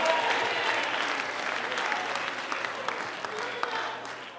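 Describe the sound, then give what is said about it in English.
A church audience in North Carolina applauds during a service: steady, fairly soft clapping from many hands that runs without a break and tapers at the end, with scattered voices in the crowd. “God, put those North Carolina hands together. Give God a North Carolina shout.”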